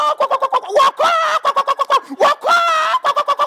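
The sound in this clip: Chickens cluck while pecking at grain, a quick run of short, rhythmic clucks broken by a few longer, drawn-out calls.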